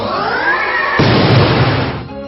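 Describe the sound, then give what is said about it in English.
A Spirit Force attack lands in a turn-based monster-battle video game: a tonal, swelling effect gives way at about one second to a loud, broad explosive burst that holds and then fades. “Pantherbit used Spirit Force.”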